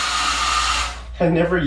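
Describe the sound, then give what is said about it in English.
A hotel blow dryer runs with a steady, loud airy whir, then cuts out; a voice follows, speaking over a low hum. “got one of these things, whatever it's called, a blow dryer. How do I turn it on? There we go.”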